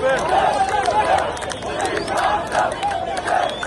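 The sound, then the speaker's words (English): Anti-government protesters in the streets of Cairo, demanding the president's resignation, chant as a crowd. Loud slogans repeat in regular rhythmic bursts over a constant roar of voices. “Because that is the sound of the streets of Cairo, where anti-government protests have been taking place in recent days.”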